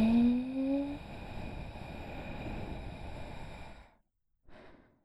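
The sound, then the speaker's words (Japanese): Deep, slow breathing in a guided breathing exercise: one long, airy breath lasting about four seconds, a brief silence, then the start of another soft breath. “一瞬止めて、はい、吐いて、はい、吸って、”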